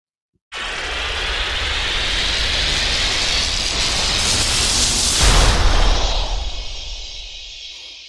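An airplane taking off as a sound effect: a loud, steady roar starts abruptly, swells to a rushing peak, then thins out as a falling whine fades away.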